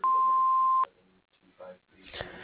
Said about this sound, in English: Please leave a message including your name and telephone number after the beep.